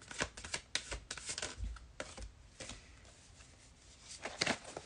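Tarot cards being shuffled for a card reading, a faint, rapid riffling and flicking of cards in uneven bursts across the whole stretch.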